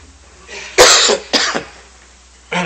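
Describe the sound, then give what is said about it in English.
Coughing and throat clearing from someone with a tickle in the throat: a few short, harsh bursts, with a louder cough followed by a rougher clearing and a final brief cough, with no talk. “Excuse me, what a time to get a tickle in my throat here.”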